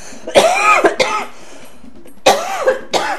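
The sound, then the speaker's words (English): A person coughing: a few harsh, raspy coughs in two short clusters separated by a pause, loud and heard alone without speech. “I'm coughing, thinking about it.”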